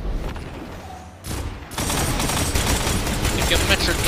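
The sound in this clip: Gunfire from a sniper rifle in an online shooter video game match is a dense, loud crackling burst. It dips briefly, then swells and holds steady to the end.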